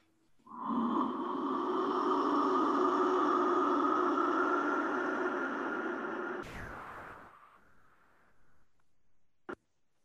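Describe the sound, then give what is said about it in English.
A deep, long breath out during a shamanic breathing exercise, sustained for about six seconds and slowly fading, followed by a brief burst of noise and a faint click. “Hold it and breathe out.”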